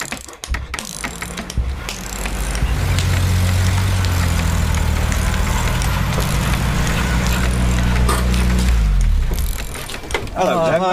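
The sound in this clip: A car engine idles with a steady, deep low rumble that builds in after a couple of seconds and holds until near the end, overlaid with rattling, clicking mechanical noise.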